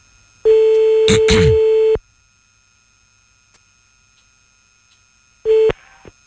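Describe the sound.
A telephone call being redialed after a dropped connection: a steady line tone with short keypad-like beeps over it, then silence, then a brief return of the tone.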